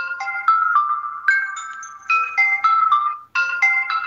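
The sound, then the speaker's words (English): Bright electronic chimes for callers getting on air: a melodic run of ringing notes in a few phrases that step up and down in pitch, played clearly and alone with no talking. “that's what you'll hear when you get on the air. That's my latest version of chimes.”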